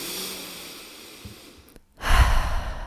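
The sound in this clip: A deep breath drawn in during a seated guided meditation with eyes closed: after faint breathing and a short silence, one full, loud inhale rises and holds through the end, with no talking.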